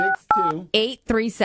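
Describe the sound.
Telephone keypad dialing tones, two short beeps in quick succession, followed by a voice.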